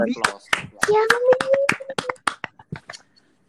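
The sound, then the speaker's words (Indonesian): A few quick hand claps in an irregular series blend with a person talking over them. “Aplaus, ya.”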